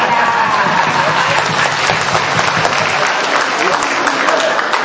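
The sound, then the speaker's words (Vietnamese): Audience applause, a dense, steady clatter of clapping hands that carries on evenly at full strength for the whole stretch. “Rồi, vỗ tay như vậy.”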